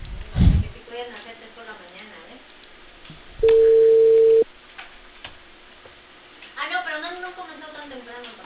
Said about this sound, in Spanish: Ay, ya recién, timbra.